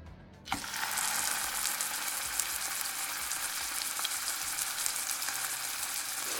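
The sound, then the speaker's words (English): Fish frying with spices bursts into a sizzle after a brief quiet moment, then settles into a steady crackling hiss with small pops, fairly soft overall and with no voices. “Oh my God, you're cooking again? Finally, it has happened to me right in front of my face. Fish cooked with real spices.”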